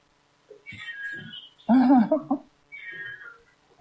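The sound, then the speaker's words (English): A cat meows in agitation, freaking out during a live show: a few strained, wavering meows, the middle one loudest and harshest. “And we have a kitty still freaking out.”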